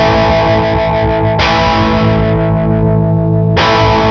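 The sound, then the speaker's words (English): An electric guitar plays a power chord through a Chellee Ponyboy overdrive pedal with the gain turned up, on the left voicing setting. The chord is loud and distorted and is struck three times, each ringing out with a long sustain before the next attack. “Let's see if we can detect the difference when I turn up the gain and let a power chord ring out and change it.”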